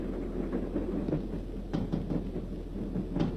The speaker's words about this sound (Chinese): 一列军用火车在夜色中奔驰而过，林彪在车厢里正看书。